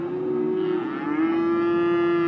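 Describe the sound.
A cow on a grass-fed cattle ranch in western Montana gives one long, low moo, steady in pitch and fairly loud, lasting about two seconds with no talk.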